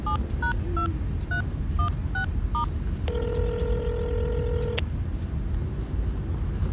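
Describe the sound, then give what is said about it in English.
Touch-tone telephone dialing: seven short electronic beeps of varying pitch in quick succession, then a longer steady tone, all over a constant low background rumble. “Call him. I'll dial here.”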